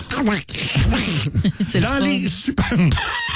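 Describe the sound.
A man's voice imitates Donald Duck with raspy, nasal quacking squawks, delivered in a few quick bursts of garbled cartoon-duck speech.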